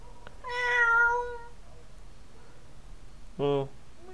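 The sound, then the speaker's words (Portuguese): A cat meows twice: first a long, drawn-out, fairly loud meow, then after a pause a short, clipped one, both over a faint background hum. “O gato ainda está lá. Oxi! Ganhei um gato!”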